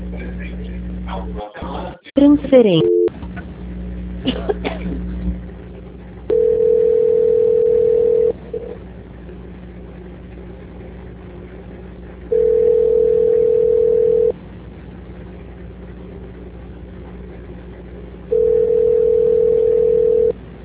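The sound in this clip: A telephone tone plays while a call is transferred. After brief clicks and garbled line noise, three long, steady, mid-pitched beeps sound at even intervals, with silence between them.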